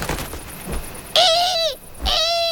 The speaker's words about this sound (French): La chouette effraie déploie ses ailes de plus d'un mètre d'envergure et pousse sur ses pattes pour prendre son envol.